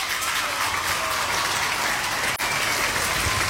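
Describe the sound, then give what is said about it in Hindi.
Dense, steady applause rewarding correct answers, loud and continuous for the whole stretch with no voices over it. “आप सभी ने यहाँ पे सही जवाब दिया तो आपके लिए बजेंगी तालियां”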